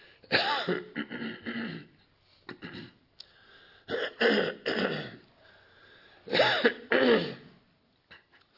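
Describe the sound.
Throat clearing after inhaling garden dust while tilling: several rough, raspy bursts, some short and some longer, spaced out over a few seconds with quiet gaps between them.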